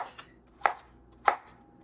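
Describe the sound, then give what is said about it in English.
Knife mincing food on a cutting board: two sharp, loud chops stand out about half a second apart, with a fainter tap before them and no talking. “Here, though, I'm going to give it just a nice, good mincing.”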